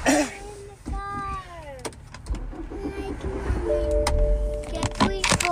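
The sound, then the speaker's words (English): A car pulls up to a gas pump with a low engine rumble and scattered clicks and knocks, while people talk over it throughout. “Hold on, we pulling up. Wait, baby, I gotta pull up to the gas pump.”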